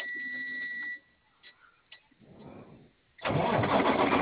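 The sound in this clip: A vehicle engine cranks briefly, then catches and starts, settling into a steady running rumble that carries on to the end.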